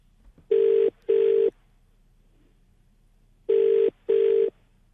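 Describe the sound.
Ringback tone of an outgoing telephone call, heard as two double rings, each a pair of steady buzzing tones with a long silent gap between the pairs.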